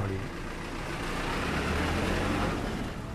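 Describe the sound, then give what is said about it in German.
Steady rumbling engine and road noise from a shuttle bus carrying TSMC employees between buildings in a technology park, a continuous even drone with no talk. “Zurück im Technologiepark. Ein Shuttlebus fährt TSMC-Angestellte zwischen den Gebäuden hin und her.”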